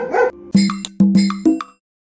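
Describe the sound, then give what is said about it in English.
A pet dog barks a few short, sharp, pitched barks in quick succession, then goes silent. “Sorry, that's my dog.”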